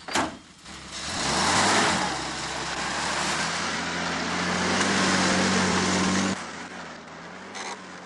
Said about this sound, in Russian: Отъехав на несколько метров, машина останавливается.